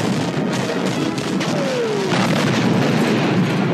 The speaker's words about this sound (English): This AT-AT head exploding from stereo to mono. Can you tell any difference? There's a stereo AT-AT head exploding.